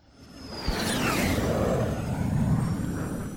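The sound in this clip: An airplane takeoff sound effect: a roar swells from quiet to loud within the first second, a whoosh sweeps downward in pitch, and a broad, rumbling drone holds until the end.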